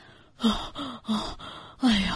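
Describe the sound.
Heavy, exhausted panting from a man lying on a sandy beach, out of breath. A voice performs several loud, voiced gasping breaths in an uneven rhythm, with the last one strongest.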